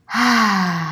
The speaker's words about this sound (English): Since we are breathing out with our mouth, we are going to produce the ha tone, which is on the same frequency as 528 Hertz, which is the healing frequency. So our exhales are going to sound like this.